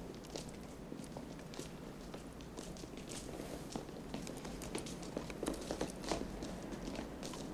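Footsteps of a group of soldiers turning and walking away, many faint, uneven steps shuffling along at a steady pace, low and soft throughout.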